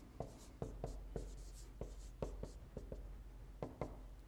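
A marker squeaks and taps across a board as a timeline is drawn, with many short, faint strokes in an uneven rhythm and no talk.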